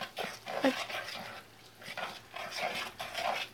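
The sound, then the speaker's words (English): Minced meat being mixed with an egg, a series of soft, wet squelching bursts in an uneven rhythm, moderately loud and with no talk over it. “I'm going to put this egg. in the mince okay, meat. So just an egg. I'm going to mix the mince meat around.”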